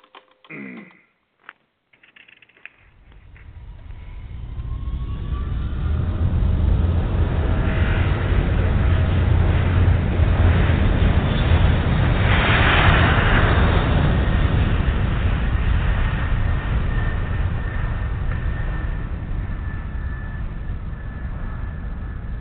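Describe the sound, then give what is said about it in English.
An Eastern airliner at Miami begins its takeoff roll. A few sharp clicks come first, then a jet roar swells and holds, loud and steady, for nearly twenty seconds. “The winds are from the east at 5 knots, and you're cleared for takeoff. Roger, Miami Tower, Eastern 263 is on the roll.”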